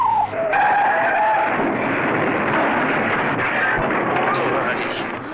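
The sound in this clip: Car tires skidding as the car is about to crash, in a Spanish-dubbed 1936 comedy scene: a loud, harsh screech that lasts several seconds, with voices shouting over it.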